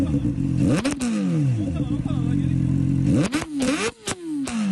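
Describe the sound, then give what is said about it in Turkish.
A vehicle with a loud, modified exhaust revs hard over a steady, rumbling idle, with a few sharp rising revs that flare up and drop back. “Denetimlerde ayrıca çevreyi yüksek sesle müzikle rahatsız eden ve abartılı egzoz kullanan araçlar da tek tek tespit edildi.”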